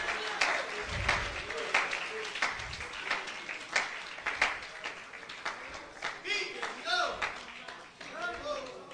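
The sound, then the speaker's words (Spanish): Applause from a church audience during a sermon: dense, steady clapping with sharp repeated hand claps and voices mixed in, sustained at a fairly even level across the whole stretch. “El aplauso sea más fuerte, que Él se lo merece. El aplauso no es para mí, el aplauso es para Cristo.”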